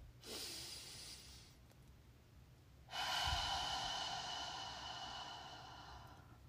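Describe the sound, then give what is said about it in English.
Deep breaths in and out: two long, airy breaths, the second louder and longer and fading slowly, soft and with no talk. “So just taking a couple of deep breaths in and out.”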